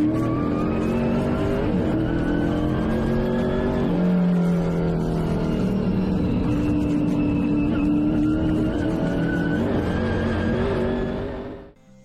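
Race cars accelerating at an auto race: loud, sustained engine roar with harmonic tones that shift in pitch as the cars rev, continuing for about twelve seconds before dropping away at the end.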